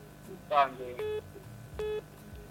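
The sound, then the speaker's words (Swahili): Two telephone keypad tones from someone pressing buttons on a phone during a call: short, steady electronic beeps with a pause between them, heard after a brief voice-like sound over a faint line hum. “Huyu naye tena ndo anabonyeza simu.”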